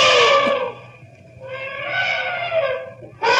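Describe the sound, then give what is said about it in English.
A charging elephant trumpeting as it attacks a man: loud, harsh, harmonic blasts in three bursts separated by short gaps, the last starting near the end. “That elephant picked you up and threw you 50 feet.”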